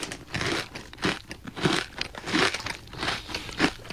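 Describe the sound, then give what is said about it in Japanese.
Crunchy bites into a mini croquette, a series of crisp crunching bursts at a fairly steady rhythm, followed by softer chewing crackles, with no talk. “ミニコロッケ出てきましたよ、これ。 出てきたね。可愛らしい。 いただきます。”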